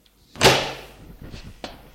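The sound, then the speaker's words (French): A door swings open with a sudden loud knock-like burst that fades into a soft rumble, followed by a shorter, sharp click. “La porte s'ouvre.”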